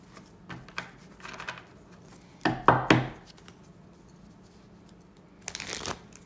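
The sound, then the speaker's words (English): Tarot cards are shuffled in soft, papery bursts: faint scattered flicks, a louder cluster of riffling slaps in the middle, then quiet, and a final brief shuffle near the end. “And with that, let's pull some cards for our tarot guidance for this week ahead, the week of March 3rd to the 10th, 2024.”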